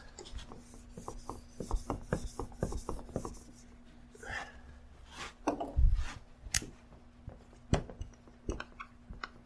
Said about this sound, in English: Just went through that, I'm going to erase this. Hang on a second.